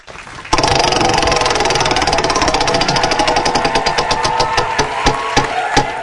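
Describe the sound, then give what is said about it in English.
A prize wheel spins with a loud burst of rapid clicking that gradually slows, the ticks spreading farther apart toward the end. A voice speaks briefly. “go ahead and spin the Wheel of Skin.”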